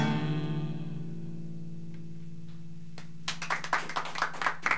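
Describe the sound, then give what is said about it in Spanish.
Audience applause for a duo of performers at an evening show: a fading held musical note gives way to a burst of many quick, sharp claps that continues to the end. “Un aplauso para los chicos.”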